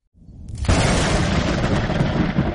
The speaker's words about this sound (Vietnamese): Một tiếng sấm ầm vang